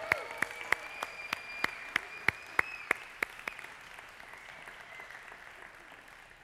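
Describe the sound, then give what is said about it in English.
A church audience applauds for the children with about a dozen sharp, evenly spaced claps in unison. The clapping then trails off into a softer, diffuse crowd noise. “Let's make some noise for our kids.”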